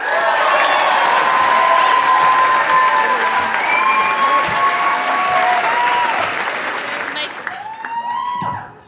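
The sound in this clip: Sustained, loud applause and cheering from a show audience welcome guest Stephen Colbert, holding strong for several seconds before tapering off as a voice starts speaking.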